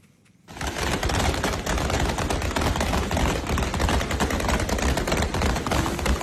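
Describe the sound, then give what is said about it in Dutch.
Gunfire by Taliban fighters at a protest in Kabul, Afghanistan, bursts in after a brief quiet moment. Dense, rapid shots and cracks then keep on loudly and without letup to the end. “bij een protest in de Afghaanse hoofdstad Kabul hebben de Taliban schoten gelost. En zo is te horen op filmpjes die op sociale media zijn geplaatst.”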